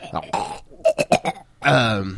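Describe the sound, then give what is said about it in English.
A throaty, burp-like guttural noise made by a voice: a few short rasping pulses between louder voiced bursts, fairly loud and rough. “Throat noise. Yeah, throat noise.”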